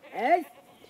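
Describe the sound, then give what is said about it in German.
A single short bleat comes from a goat grazing on an island. It rises quickly to a wavering, nasal peak and then fades into quiet within a second. “Die Ziegen grasen überall auf der Insel.”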